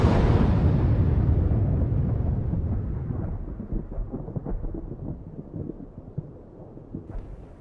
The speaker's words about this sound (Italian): Un'esplosione spaventosa sembra frantumare l'intera montagna. La nuvola di fumo e polvere investe l'intera zona.